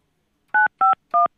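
Three touch-tone keypresses ring out as a telephone dials a cell phone number. The tones are clean and evenly spaced, with silence between them.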